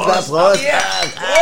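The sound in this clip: Beer glasses clink together in a toast, a few bright chiming rings mixed in with overlapping voices throughout the short burst.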